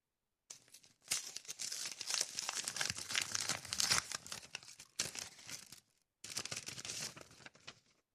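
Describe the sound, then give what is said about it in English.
Paper envelope being torn open and crumpled, a long stretch of crisp ripping and crinkling bursts that break off briefly, then resume for a shorter final burst, with no voices. “We also have another envelope here that will be destroyed by my claws of fury.”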